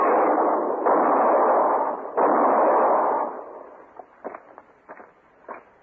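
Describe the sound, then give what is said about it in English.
Gunshots in a drama scene where a man is shot: a few loud, sharp blasts with long roaring tails fill the first three seconds, followed by faint, scattered clicks and knocks. “He was going to shoot Mr. Hinkle. Yeah. You think you killed him?”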